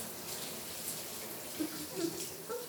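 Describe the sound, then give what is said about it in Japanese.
Shower water running in a soft, steady hiss of spray. It stays faint, with a few slightly louder splashes toward the end. “シャワーくすぐったいですか？”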